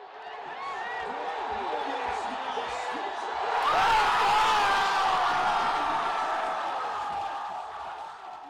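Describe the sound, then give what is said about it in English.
A crowd cheers the Washington Nationals' National League pennant win, which sends the team to the World Series. A steady roar of voices swells about halfway through, with a thin whistle-like tone cutting above the din. “That was the sound of victory, specifically victory in the National League pennant for the Washington Nationals, sending them to the World Series for the first time in the recent history of their franchise.”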